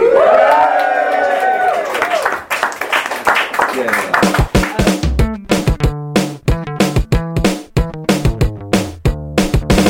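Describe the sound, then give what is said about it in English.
A live audience cheers loudly with raised voices, then the cheering gives way to many rhythmic hand claps that continue to the end. “So let's go and rank it now, guys. Let's get a cheer.”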